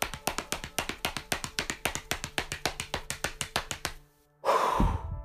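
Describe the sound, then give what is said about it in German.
Fists drumming on the thighs in a fast, even run of many soft thumps, followed by a deep inhaled breath. “Schließe die Hände zur Faust. Trommle jetzt mit den Händen auf den Oberschenkeln.”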